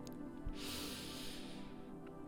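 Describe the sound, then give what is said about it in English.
A slow, deep inhale taken during a guided breathing exercise. It comes as a soft, airy hiss lasting about a second and a half, quiet and on its own. “Last time, deep breath in.”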